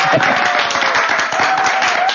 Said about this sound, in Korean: 박수 쳐도 됩니다.